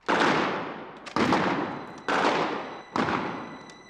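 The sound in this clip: Four loud gunshots ring out at roughly even intervals, each a sharp crack followed by a long decaying tail, with no voices.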